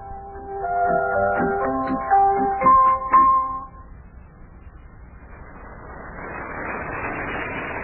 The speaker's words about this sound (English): we're driving along in the country road on our way to Yuki's farm